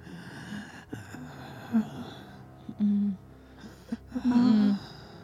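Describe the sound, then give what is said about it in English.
Labored breathing: a few heavy, gasping breaths, some with a voiced, groaning edge, coming in uneven bursts that swell and fade, with no talk over them. “as its head lolls forward, you hear from behind you, belabored breathing.”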